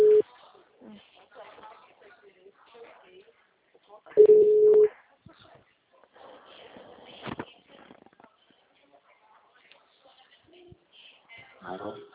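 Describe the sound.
A telephone line tone after a dropped call: a short steady beep at the start and a longer flat tone around midway. Voices speak quietly in the gaps.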